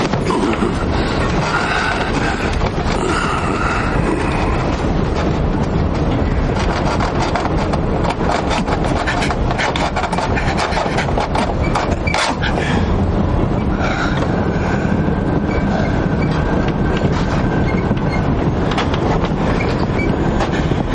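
A World War II train wagon carrying soldiers at night on its way to Auschwitz, rolling on rails: a loud, continuous rumble with rhythmic clattering of wheels and gusts of wind noise throughout.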